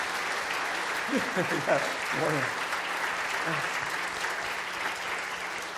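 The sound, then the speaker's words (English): Church audience applauding new members in a polite round, steady clapping throughout with a voice speaking over it. “So let's just give these folks a nice, polite round of applause, okay?”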